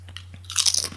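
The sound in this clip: Crunching of pizza-flavoured potato chips: a few soft taps, then a loud burst of crisp, crackling bites over a steady low hum.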